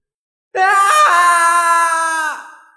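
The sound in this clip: A man screams in rage, one loud cry held for nearly two seconds, steady and strongly tonal, dipping slightly in pitch at the end before it fades out.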